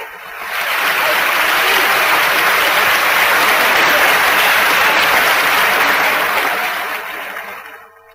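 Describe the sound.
A Paris audience applauds an acclaimed young performer with loud, dense, sustained clapping that holds steady for several seconds before fading away at the end.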